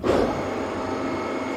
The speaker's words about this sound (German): So, dann Achtung, Bühne fährt.